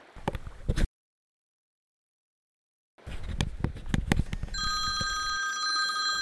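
A telephone rings, its bright, sustained electronic tones entering near the end after clattering knocks and a long silent gap.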